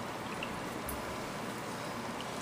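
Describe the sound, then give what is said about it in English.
Water pours into a cooking pot holding vegetables and meat, making a steady, continuous rushing splash that stays even in level throughout and is heard alone. “And then what we're gonna do is we're just gonna add water, enough water to cover our vegetables and our meat.”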